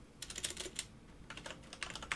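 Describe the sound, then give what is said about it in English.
Rapid, light key clicks of a computer keyboard as someone types a note, coming in two short bursts of tapping with a brief pause between, fairly faint and with no talking. “I'm writing myself a note to remember to do shout-outs at the end.”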